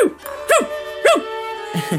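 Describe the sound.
A dog barks in short, high, yelping bursts that rise and fall in pitch, a few spaced about half a second apart with softer yips at the end, over a steady sustained tonal background.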